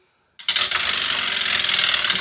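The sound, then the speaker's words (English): A prize wheel spun hard sets off a loud, rapid run of whirring clicks that starts abruptly and keeps a steady, dense ticking for about two seconds. “So let me give this spin. I've been lifting weights, working out. So let's see if I can spin the wheel really hard here.”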